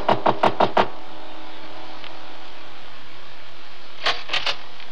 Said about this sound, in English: I took a deep breath and knocked.